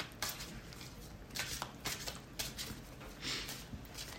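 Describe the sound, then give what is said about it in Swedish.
A deck of playing cards is shuffled in soft, faint riffling bursts that repeat irregularly, with no talking. “Jag blandar lite här igen. Blandar upp det här lite.”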